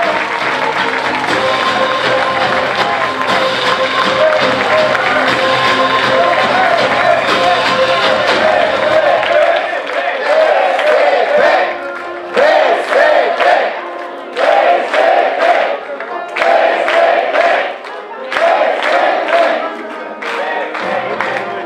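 Sustained applause and crowd noise greet the chair of the Bulgarian Socialist Party at a party event. The dense clapping runs for about ten seconds, then breaks into a series of short, loud rhythmic crowd bursts with brief gaps between them.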